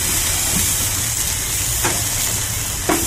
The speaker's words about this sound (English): You just heard him hit the grill. All right. And the flames.